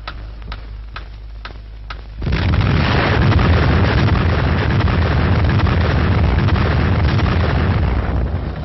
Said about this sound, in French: Vous vivez dans le blockhaus de la mise à feu, la minute solennelle de la première explosion atomique française.